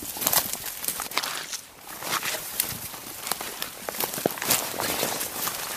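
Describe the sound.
Footsteps walking across a wet, floating mat of sedges and mosses in a transitional peat bog, making a continuous dense rustling and soft crunching with many overlapping steps at a steady pace.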